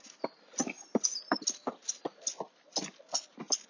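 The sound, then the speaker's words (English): Footsteps of a man jogging past in the morning: many crisp, evenly spaced footfalls in a quick steady rhythm, alone with no talk. “Just be a little bit quiet there as a jogging man was running past trying to prolong his life.”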